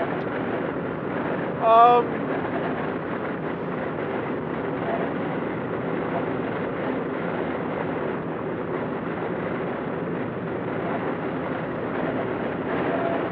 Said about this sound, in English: Whistles a lot. Usually the speed doesn't do it, but it's this 50 mile an hour wind outside that's hitting it funny.